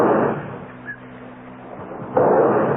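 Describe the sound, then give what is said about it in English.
Pistol shots at a pistol range: two heavy booming reports, one at the very start and another near the end, separated by a quiet stretch. “They meet in such places as the athletic field, the running track, or, as in the case of Bennett Green and Will Dudley, the pistol range.”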